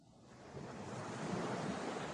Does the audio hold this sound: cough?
no